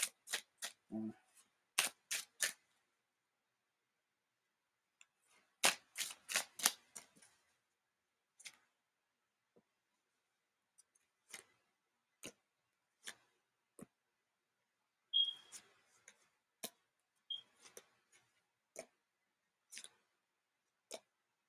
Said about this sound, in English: knew I was gonna need my tarot cards for this.